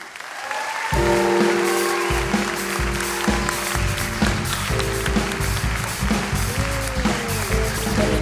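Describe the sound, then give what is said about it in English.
Audience applause welcoming a performer onto the stage at a live storytelling show, breaking out after a brief moment and staying loud, dense and steady throughout. “Would you please put your hands together?”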